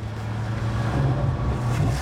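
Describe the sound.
Old Italian sports car engine running while driving, a steady low rumbling drone at moderate level with a faint wash of road noise and no voices.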